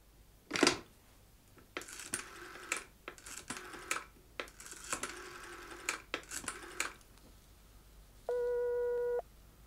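Telephone call placed late at night: a series of mechanical dialing clicks, then a single steady, even ring tone lasting about a second.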